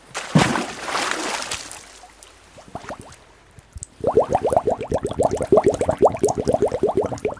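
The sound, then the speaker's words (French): Water splashes and bubbles as a reptile dives underwater. A rushing, noisy burst at the start eases into a quieter stretch, then rapid, closely spaced bubbling gurgles churn on loudly to the end. “Accroche-toi à mon dos et on plonge. Regarde là, j'ai repéré quelque chose.”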